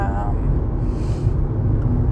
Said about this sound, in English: I'm hoping you guys can actually, like, hear me, because I've got the air going, and obviously I think I already said I'm driving